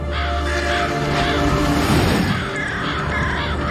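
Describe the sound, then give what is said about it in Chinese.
A flock of crows caws at dusk around a mountain peak, harsh overlapping calls running continuously over a steady, noisy background. “每至日暮，成群的乌鸦翩然盘旋，当地人视之为穿梭天人之界的神鸟。”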